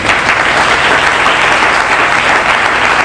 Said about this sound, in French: Je veux que tu acclames Dieu pour sa vie.